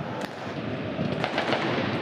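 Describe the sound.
Fireworks and firecrackers go off inside a football stadium during a match, a few sharp pops and cracks rising above a dense, steady crowd roar.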